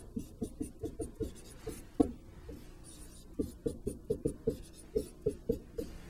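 Handwriting of a math expression, writing x plus h twice: many quiet, rhythmic scratching strokes in quick bursts, with a short pause midway and no talk.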